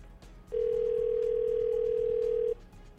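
A telephone ringback tone while waiting for a call to be answered: one steady, loud, mid-pitched tone lasting about two seconds, with faint background noise before and after.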